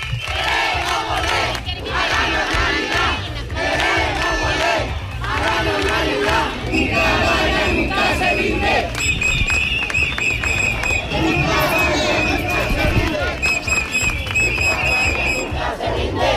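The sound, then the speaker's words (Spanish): Protest crowd chanting during a street march against a possible asylum centre in a former flour factory, many voices shouting together in a loud, continuous, dense roar that never lets up. “Estos son algunos de los cánticos que se escuchan durante todo el recorrido.”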